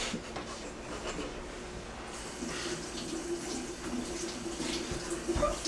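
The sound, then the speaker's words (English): Tap water runs while a vegetable is washed under it: a quiet, steady rushing stream with faint handling noises mixed in. “As with any fruit or vegetable, at some point in the process you should wash it.”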